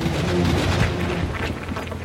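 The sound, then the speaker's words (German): A loud, dense crackling rumble like thunder marks a lightning bolt shot into the sky by a dragon in a children's audio drama. It runs unbroken and steady for the whole two seconds. “Der lila Drache war so erschrocken, dass Bao, sobald er wegfliegen wollte, einen Blitz in den Himmel schoss.”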